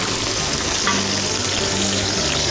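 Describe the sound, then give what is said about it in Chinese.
Aromatics sizzle in hot oil in a wok over medium heat, making a continuous, even crackle that holds steady throughout with no voices. “热锅凉油，中火就可以，啊，烧热了之后下料头”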